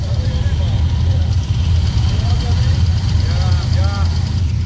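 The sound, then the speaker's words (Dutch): A Harley-Davidson Sportster motorcycle rides in, its engine giving a steady, loud, low rumble that continues throughout, with people talking over it. “Komt hier een fantastische Harley net binnenrijden, maar niet met een Distinguished Gentleman, maar met een woman.”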